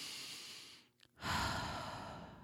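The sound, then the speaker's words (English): A deep breath taken slowly as a relaxation exercise: a long airy inhale, a short pause, then a fuller, louder breathy exhale that gradually tapers off, with no talk. “take a moment and take a big, huge, deep breath.”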